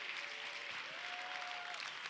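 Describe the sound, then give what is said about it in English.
Clapping from a youth camp audience forms a continuous, even wash of hands, with a faint sustained tone running beneath it and no clear speech. “why don't you clap your hands right now and say, I can hear.”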